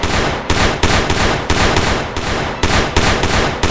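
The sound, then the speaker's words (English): Pistol firing a whole magazine: many loud, sharp shots in rapid, slightly uneven succession, each booming burst running into the next with no pause. “Grabbing the pistol, I rolled to my back and fired the whole clip into the monster's back.”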